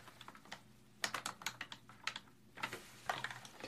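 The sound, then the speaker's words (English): A password being typed on a computer keyboard: many quick, faint key clicks in irregular clusters, with brief pauses between runs of keystrokes and no talking. “Okay, let's type in my password.”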